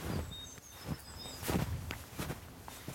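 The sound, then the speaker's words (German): Footsteps crunch on a forest service track covered in 20 cm of fresh snow, several soft, muffled steps falling in a steady walking rhythm. “Wir gehen auf einem Wirtschaftsweg durch den Wald Richtung Alpgard. Es liegen 20 cm Neuschnee”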